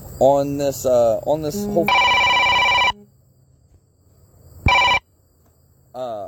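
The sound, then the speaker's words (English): A phone rings with an incoming call: a bright, steady ringtone burst of about a second, then a much shorter second ring, with a man talking before and after the rings. “So that's my phone call that I got to take one of the kids to work.”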